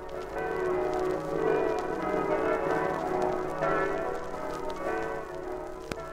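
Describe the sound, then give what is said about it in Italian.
Church bells ringing in Friuli, continuous overlapping peals with a full, steady tone and sustained hum that fills the whole span without pause. “La voce di queste stesse campane sono della Carnia, di Udine, di Gorizia, di Pordenone, di Cividale, di San Daniele, di Osoppo, di Maniago, di Meduno”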